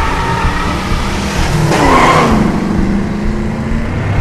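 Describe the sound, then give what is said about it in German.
A driverless car's engine roars steadily and loudly as it pulls away with the steering fixed and the pedal held down. A brief tire squeal rises midway through the continuous engine noise, with no talk. “Das Lenkrad ist fixiert, das Pedal gedrückt. Jetzt Gang rein.”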